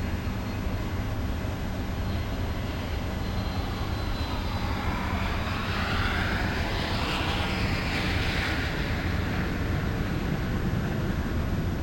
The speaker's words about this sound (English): Japan 320, clear for takeoff. After takeoff, contact departure.